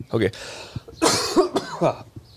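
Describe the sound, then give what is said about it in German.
Dry coughing from a person, a few harsh, moderately loud bursts with voiced, throat-clearing tones between them. “Nein, ich muss husten.”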